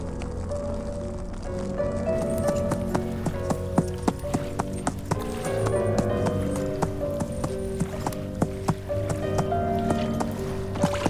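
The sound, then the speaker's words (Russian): Horse hooves clopping steadily as a horse walks into a river dragging its rider's body, with many regular hoof strikes over a continuous low background. “Лошадь входит в реку, волоча тело всадника, и плывет.”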